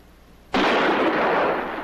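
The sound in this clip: A single gunshot from a gun firing its last bullet: a sudden loud burst that swells into a broad roar lasting over a second before slowly tapering, with no speech.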